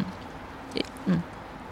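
Teeth bite into a candy lollipop, the kind sold as an adult treat: a short, sharp crackle followed a moment later by a duller, slightly louder crunch. Both sounds are faint and stand alone with no talking.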